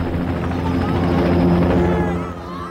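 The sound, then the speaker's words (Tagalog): An Air Force helicopter flies overhead at a university campus during a police deadline, its loud, steady rotor drone and low throbbing beat sustained throughout before easing slightly at the end. “Iyong naririnig mong ingay, helikopter yon ng Air Force.”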